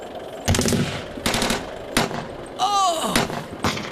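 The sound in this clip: Machine gun fire comes in several short, sharp rattling bursts separated by brief gaps, loud and abrupt against a noisy background.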